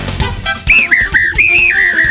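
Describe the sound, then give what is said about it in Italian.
Whistle blasts from a dog whistle, a few clear high-pitched tones with slight wavering slides in pitch, coming in after a brief burst of other noise and sounding loud and alone. “Non sapevo che la conquistavo con un fischietto. Quello dei cani, peraltro.”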